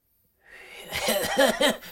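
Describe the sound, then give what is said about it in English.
A voice imitates a weak, pathetic cough with several breathy, voiced bursts in a quick uneven rhythm after a soft hiss at the start. The sound is fairly quiet and thin, with no other talk. “that's like this, like, the most pathetic sounding, like, cough ever”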